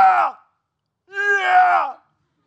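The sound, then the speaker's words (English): A single voice imitates a crowd cheering as a breaststroke swimmer's head surfaces: a short vocal whoop, a pause, then a longer drawn-out cheer. “They're cheering. but it's in these waves as his head pops out. It's really kind of, it's so cool to watch, is every time in the breaststroke he comes out, the whole crowd goes,”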